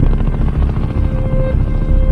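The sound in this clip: A helicopter coming in to land, its rotor and engine making a loud, continuous throbbing roar with a dense low rumble and a steady tonal whine, unbroken throughout.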